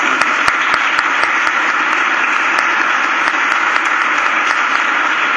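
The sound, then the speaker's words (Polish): Audience applause for a group of singing children, many hands clapping in a dense, even patter that stays loud and steady from start to finish without a break. “piękne aniołki, zasługujecie na wielkie brawa właśnie.”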